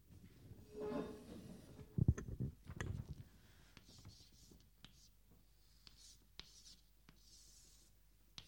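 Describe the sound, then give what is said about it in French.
Chalk writes on a blackboard during a lecture. Scratchy strokes and taps are busiest at first, then thin out to scattered faint clicks, with soft voices murmuring at a low level. “Donc je vais écrire au tableau.”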